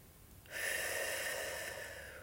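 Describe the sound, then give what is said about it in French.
One long, soft breath, part of a slow cycle of breathing in and out, is heard as a quiet airy hiss that starts abruptly and holds steady for nearly two seconds. “On inspire... Et on expire. L'inspiration.”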